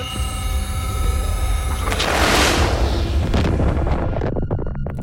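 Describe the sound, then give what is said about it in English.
An orbital strike explosion in a video game: a broad, noisy roar that swells into a heavy rumbling blast near the middle, with crackling texture, then slowly thins out. “Requesting orbital strike on my position. Roger, Lieutenant. Stand by. Orbital strike inbound.”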